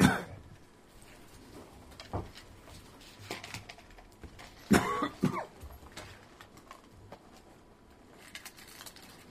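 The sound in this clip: Coughing from phlegm caught down the wrong pipe: a few harsh bursts clustered in the middle, with fainter isolated throat sounds earlier and a quiet background otherwise.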